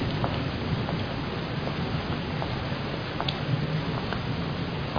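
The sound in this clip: Steady rain falls as someone walks outdoors, a soft even hiss with scattered faint ticks of drops throughout. It is quiet and unbroken, with no voices.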